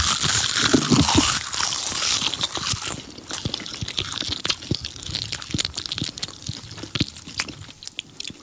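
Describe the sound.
Someone bites into crunchy sea moss right at the microphone, ASMR style. A loud crisp crunch is followed by many sharp crackles and chewing clicks that gradually become sparser.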